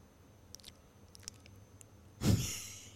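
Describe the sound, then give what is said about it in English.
Faint, wet lip smacking, a few soft scattered clicks of the mouth, then a louder, brief rush of sound near the end. “Because we're here, like, smacking our lips, trying to be normal.”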